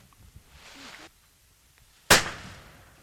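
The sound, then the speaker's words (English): A single sharp gunshot kills a hog at a family hog killing. Faint voices come first, then the loud crack bursts out and trails off in a decaying tail. “Don't shoot him down the nose now. I nearly did that one. Get him high enough.”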